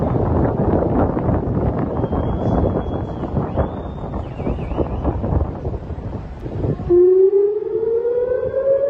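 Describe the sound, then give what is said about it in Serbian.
Air-raid sirens wail across Israeli cities such as Jerusalem and Tel Aviv on a Saturday evening. Blustery wind noise comes first, then a loud siren tone climbs steadily in pitch. “Zvuk sirena za vazdušnu opasnost odjekivao je u subotu uveče u Jerusalimu, Tel Avivu i drugim gradovima na severu Izraela”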